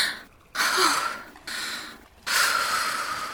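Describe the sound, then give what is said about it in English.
Deep, slow breaths: a long, airy inhale, a softer exhale, then another long inhale that runs to the end, hissing and breathy with no talk. “Deep breaths.”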